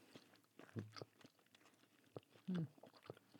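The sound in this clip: Faint chewing and crunching of a hot chicken wing coated in bear-spray hot sauce: soft, irregular bites and wet mastication, with a couple of brief murmured vocal hums.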